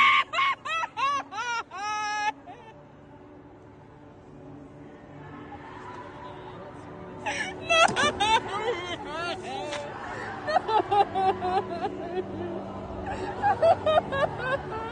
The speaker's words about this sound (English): one of the girls who had obviously set up the camera to capture this moment just descended into fits of tears, wailing, crying.